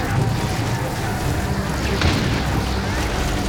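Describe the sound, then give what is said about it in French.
Battle sound of bombardment and gunfire at a beach landing where German defenders fire back after a dawn bombardment: a loud, unbroken roar of rumbling booms and crackling blasts, with one sharper burst standing out in the middle. “Soudain, éclate un boucan d'enfer. Les bombardements à l'aube n'ont pas suffi à neutraliser les Allemands qui ripostent. Mamma mia, ça peut des balles dans tous les sens.”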